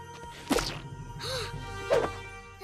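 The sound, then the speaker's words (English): Cartoon sound effect of slipping on a banana peel: a quick whoosh, a short arcing tone and a hissy sweep, then a soft thud, with no voices. “Chelsea slips on a banana peel.”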